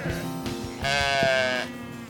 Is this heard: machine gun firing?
no